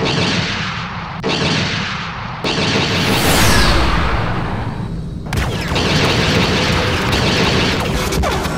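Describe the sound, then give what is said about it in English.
Explosion as a ship's generator is hit: loud, heavy blasts and booms layered over a sustained rushing roar, with a few abrupt shifts in intensity throughout. “Sarge, she hit the generator. Rear deflector shields are at 10%. We can't take another hit like that.”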